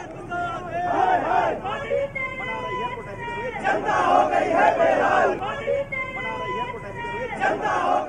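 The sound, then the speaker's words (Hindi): Party workers shout slogans against the central government during a street protest in Delhi. A dense crowd roars in rhythmic, surging waves of chanting, with loud bursts recurring every second or two over continuous babble. “वहीं party के कार्यकर्ताओं ने दिल्ली की सड़कों पर उतरकर केंद्र सरकार के खिलाफ जमकर नारे लगाए।”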